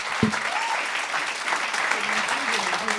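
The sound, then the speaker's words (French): A brief burst of steady applause from an audience, with a voice speaking over the clapping. “Ce soir, on accueille, commencez à applaudir tout le monde. On fait du bruit.”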